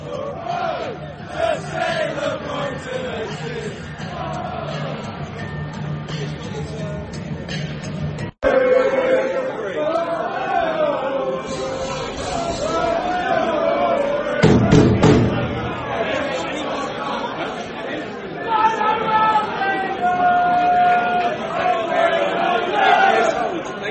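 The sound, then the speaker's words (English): Football crowd at an Albion match getting going: a broad roar of chanting and shouting that swells louder around the middle, with a man talking over it. “it all sounds a little bit quiet, a bit subdued really for what could be a great opportunity for the Albion to do something a bit special this evening, hopefully. And as I say that, the crowds start to get going”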